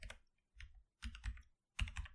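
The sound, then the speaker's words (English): Faint clacking of a computer keyboard as someone types notes, coming in about four short bursts of rapid keystrokes separated by brief pauses. “Sorry for all the clacking. I gotta write in show notes.”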